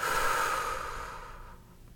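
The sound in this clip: Slow breathing, a single long exhale that begins moderately loud and gradually fades to near silence.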